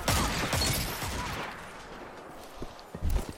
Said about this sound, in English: My shotgun has range, but sometimes it can be like a pain in the rear.